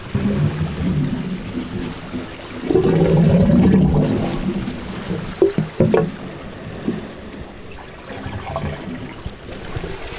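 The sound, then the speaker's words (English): Waves washing through the pipes of a wave organ, giving low hollow gurgling and sloshing tones, with a fuller surge in the middle followed by a few brief splashy bursts. “Some good wave organ sounds for you. We really are getting some great wave organ sounds.”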